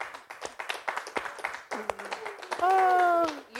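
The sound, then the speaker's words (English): A single audience member claps in a quick string of light, rapid claps, interleaved with voices talking. “Clapping because she's an audience member who comes every week, and we don't want her to leave”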